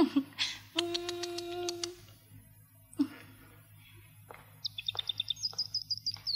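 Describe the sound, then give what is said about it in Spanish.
A small pet bird chirps in its cage: a few scattered short, high calls give way to a quick run of many thin, bright tweets near the end, all fairly faint. “¿Cómo está mi pajarito? Qué cómodo estás en tu jaulita.”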